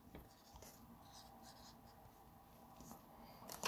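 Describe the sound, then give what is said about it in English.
A pen scratches steadily across paper, a faint continuous rasp of writing strokes that runs through the whole stretch, with a slightly sharper stroke near the end. “So you going to write your dream job down. Okay. And then I'm going to write what I think you wrote down.”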